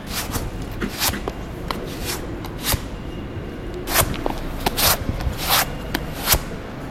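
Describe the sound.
Shoe soles are rubbed against dry ground in an underground car park to warm the rubber for grip, making many brief, faint scuffing scrapes in an irregular rhythm.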